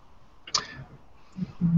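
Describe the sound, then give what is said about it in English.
A brief arrow whoosh during a tabletop roleplaying game sweeps past once, sharp and quick, then gives way to a few soft low thumps. “is going to shoot some arrows. I think I'm getting the hang of this.”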